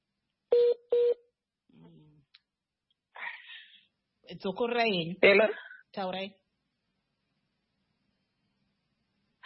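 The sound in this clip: Phone tones: two short, identical beeps in quick succession, followed by a person speaking in brief phrases with pauses.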